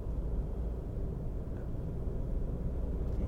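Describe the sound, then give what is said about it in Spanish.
A car driving along a road while overtaking in the left lane gives a steady low rumble of road and engine noise, constant and unbroken, with no talk. “Voy por el carril de la izquierda adelantando y se me tira uno que no me ha dado de milagro.”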